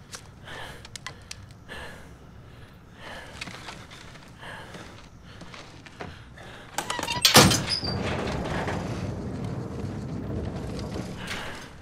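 A main door opened from inside a corridor to let a tactical team in: quiet scuffles and shuffling, then a sharp loud clack partway through, followed by a louder, steady rushing noise.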